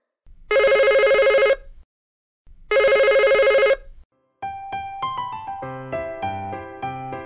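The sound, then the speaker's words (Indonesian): A telephone ringing: two long, loud electronic ring bursts separated by a pause, followed by a melodic ringtone of quick, tinkling notes in changing pitches. “dengarkan suara dering telepon berikut ini”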